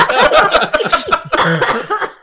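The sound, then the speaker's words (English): Spluttering coughs as a sip of water catches in the throat, a quick run of rough bursts mixed with chuckle-like breaths, fairly loud and close together. “The sip of water gets caught in your throat a little bit.”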